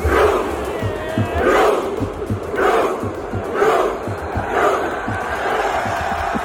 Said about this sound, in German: Wenn Norwegen gewinnt oder ein Tor schießt, rudert nämlich das ganze Stadion. Also die setzen sich dahin, strecken die Arme nach vorne und rudern wie Wikinger.